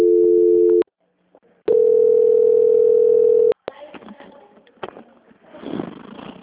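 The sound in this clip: A telephone call transfer tone plays as two steady mid-pitched tones, a short one and then a longer one, after which muffled line noise follows.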